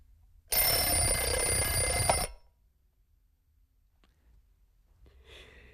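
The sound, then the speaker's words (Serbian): An alarm clock rings loudly in a single continuous burst of under two seconds, then cuts off into near silence, with a faint rustle near the end. “Prokleti budilnik.”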